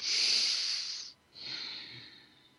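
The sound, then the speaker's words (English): Two deep breaths are taken during a guided relaxation exercise, each a long, soft, airy hiss that swells and fades, the first stronger, with a short pause between them. “Close your eyes and take a couple of deep breaths.”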